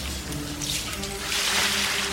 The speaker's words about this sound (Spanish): Señor, está saliendo muchísima agua del baño, ¿eh?